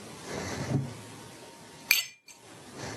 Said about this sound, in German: nur mal so ein Geräusch faken, als würde ich mit mir selbst anstoßen. Das war jetzt mein Wasserglas gegen das Whiskyglas.